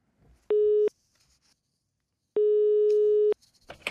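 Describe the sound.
Telephone ringing tone on an outgoing call: two beeps of a steady mid-pitched electronic tone, the first short and the second about a second long, with silence between them.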